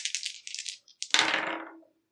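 Three dice rattle during a tabletop role-playing game: a few quick, light clicking shakes, then a louder clattering tumble that fades out.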